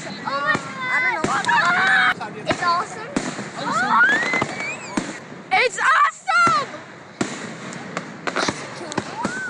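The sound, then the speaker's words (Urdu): Fireworks go off over a lake at an Independence Day celebration, launched from a platform in the middle of the water: sharp bangs mixed with many whistling, rising tones and crackling bursts that come in quick succession. “آتش بازی رات 9:15 شروع ہوئی، جس کے لیے خصوصی plate form جھیل کے درمیان بنایا گیا تھا۔”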